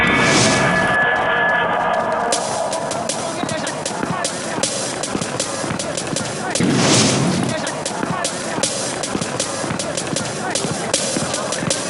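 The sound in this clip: Bombs dropped from a bomber explode in a mountain ravine, producing a dense, continuous barrage of loud crackling blasts with a heavier booming surge partway through.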